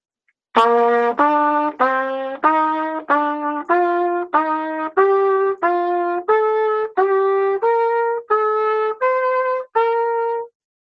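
A major scale played in thirds, with many evenly spaced, sustained notes stepping up and back in a zigzag that climbs steadily higher. Each note is a clear, bright tone, played alone with no talk.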